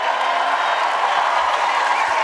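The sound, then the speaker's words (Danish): Standing ovation at the Cannes Film Festival for John Travolta as he receives an honorary Palme d'Or: dense, continuous applause and crowd cheering, steady and loud throughout with no break. “John Travolta. Ja. Blev tydeligt rørt. Fik stående bifald og kaldte prisen en ære, der overgår Oscars”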